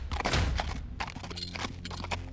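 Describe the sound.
Horse hooves thunder past together with a rolling cart or wagon, a loud, dense clatter of many overlapping hoof strikes and wheel rumble that lasts throughout, with no talk.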